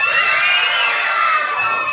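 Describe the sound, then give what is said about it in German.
Children scream with joy at a school election result: a loud, sustained, high-pitched shriek of many young voices that holds steady without a break. “Wir haben so richtig geschrien, weil wir haben uns so gefreut.”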